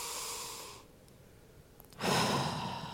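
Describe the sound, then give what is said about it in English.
A person breathing in deeply: a soft, airy breath, a short quiet pause, then a louder, fuller rush of breath that carries to the end. “Breathe in the Holy Spirit with me.”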